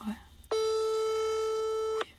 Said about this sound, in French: On lui laisse un message ou pas ça répond pas.